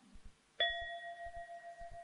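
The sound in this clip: A single bell struck during a Buddhist teaching rings out with a clear, bright tone that sustains quietly, over a few soft low thumps.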